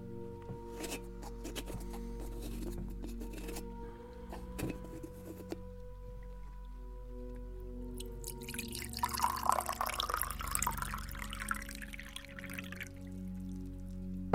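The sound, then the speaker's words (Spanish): Water is poured into a small glass during a haircut, a faint, soft trickle lasting a few seconds that comes after some quiet clicks over a low hum. “Voy a servirte un vasito de agua para que le puedas dar tragos cuando lo necesites.”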